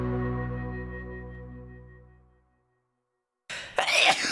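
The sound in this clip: A single sharp sneeze, staged as a joke about hay fever, bursts out at the end, after a fading chime-like tone dies away into a moment of silence.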